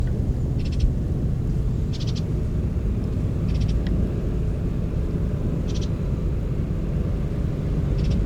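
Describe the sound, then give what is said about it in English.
A Bullock's Oriole chick gives a few short, high-pitched calls, widely spaced and fairly faint, over a constant low rumble. “That's one of the chicks calling”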